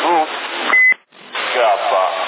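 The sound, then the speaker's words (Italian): A short, steady electronic beep on a CB radio channel in Sassari cuts between band-limited voices, followed by a brief drop to near silence before the talk resumes. “Ho sentito un bip, avanti.”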